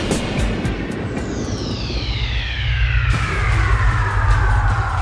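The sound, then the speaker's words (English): Airplane taking off, a loud steady roaring rush of engine noise with a whining tone that slides steadily lower in pitch, growing slightly louder toward the end, with no talk. “please fasten your seatbelts, put your seatbacks and sleeping pets in their full upright position, and prepare for takeoff.”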